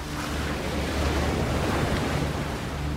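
Ocean waves break in a loud, continuous roaring surge, a dense wash of surf blended with buffeting wind noise and no voices.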